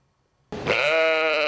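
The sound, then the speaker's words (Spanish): A sheep bleats once after a moment of near silence, a clear, steady and fairly loud call that holds its pitch to the end. “Esta es Dolly, la oveja más famosa de la historia, el primer mamífero clonado a partir de una célula adulta.”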